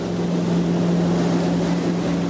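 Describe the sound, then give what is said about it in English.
Metal jet boat carrying a dozen people speeds up the powerful Snake River through a deep canyon, a steady, loud engine roar with a constant low hum and a rushing wash of water and wind, no voices. “A metal jet boat holding a dozen people zooms up the powerful Snake River through Hell's Canyon National Recreation Area.”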